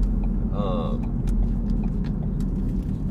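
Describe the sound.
Low, continuous road rumble from a car being driven, with passengers talking over the engine drone.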